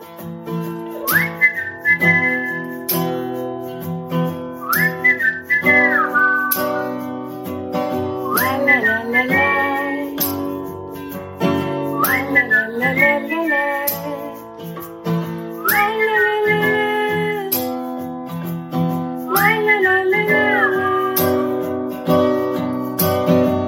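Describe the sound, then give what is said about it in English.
A person whistles a clear, loud tune in about six repeated phrases, each sliding upward before holding a note, with short pauses between phrases and no talking. “such good whistles. So good.”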